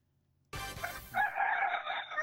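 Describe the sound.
A rooster crows once. The crow starts abruptly and is a strained, harmonic call that holds for about two seconds, with no other sounds around it.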